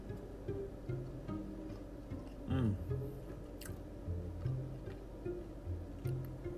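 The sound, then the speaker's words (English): A person chewing food slowly and deliberately, with moist, squishy chews repeating in a steady, unhurried rhythm and no talk. “he eats with intention. Mindfulness, he eats it. He considers it.”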